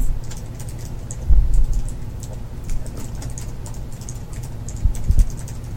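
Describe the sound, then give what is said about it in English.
Rapid clacking keystrokes on a laptop keyboard, tapped in an uneven stream with two louder flurries of hits, and no voices. “If I write down, I mean loudly clack it into my laptop with my claws.”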